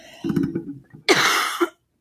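A cough: a short, low throaty vocal sound followed by one loud, harsh, rasping burst that cuts off abruptly.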